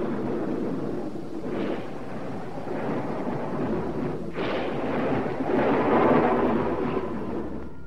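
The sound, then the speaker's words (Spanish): Thunder from a thunderstorm rolls as continuous deep rumbling, with a sharper crack near the middle and a swelling, louder rumble toward the end, with no voices. “Vaya tormenta, ¿eh?”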